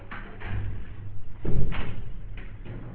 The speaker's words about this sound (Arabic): أغلق الباب حبيبي